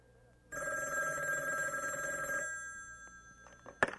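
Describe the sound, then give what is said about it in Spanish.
A telephone bell rings loudly and steadily in one unbroken ring of about two seconds. It stops abruptly and is followed by faint rustling and a single sharp click. “voy a atender el teléfono.”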